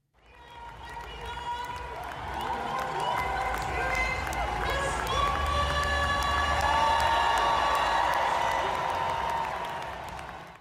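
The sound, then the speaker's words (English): Scottish rugby fans cheer and applaud at full time after a home win against Argentina in an Edinburgh stadium, a sustained loud roar of crowd noise with shouts and piercing tones rising through it. “That was the sound of full time at BT Murrayfield on Saturday, where Scottish rugby fans celebrated a win against Argentina from Scotland's final fixture in the Autumn Nations series.”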